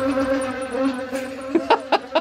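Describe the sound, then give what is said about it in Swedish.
Recorded insect buzzing tones: a steady pitched hum with rich harmonics holds for about a second and a half, then four short, bright bursts follow in quick succession. “De här insektstonerna hade alltså spelats in av Gabby Stenberg.”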